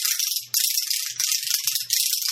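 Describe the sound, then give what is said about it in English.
Dry, rapid clatter of a clatterpillar (kokiriko), a Japanese-style percussion instrument whose small wooden slats strike each other, rattling loudly and continuously with a few brief breaks. “The instrument employs small slats of wood or plastic that strike each other when manipulated, and they sound like this.”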